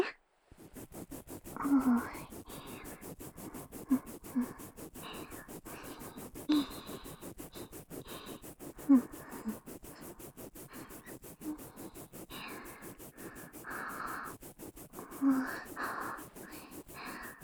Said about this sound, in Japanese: 奥歯の表側って磨くとき大変だよね。どうしてもほっぺが邪魔になっちゃうっていうかさ、スムーズにはできないよね。